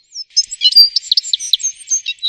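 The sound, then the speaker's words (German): Birds chirp brightly, a quick run of many short, high-pitched tweets and trills in an uneven, lively rhythm, fairly loud with nothing else heard. “die Vögel, die zwitschern so fröhlich”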